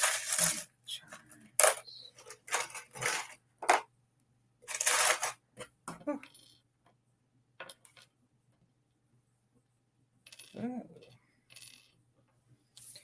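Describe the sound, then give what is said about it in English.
Metal charms clink and rattle as they are drawn, making many irregular bright clicks over the first half, then a long quiet stretch before a brief voice. “And I'm going to pull a couple of charms just because.”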